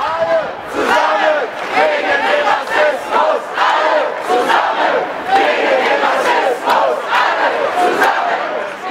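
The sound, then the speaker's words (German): A crowd chanting in unison at a demonstration against racism, loud rhythmic shouted phrases rising and falling in regular pulses throughout, many voices together. “Und wir starten vielleicht noch mal mit einem Ton von einer Demonstration zu dem Thema Rassismus”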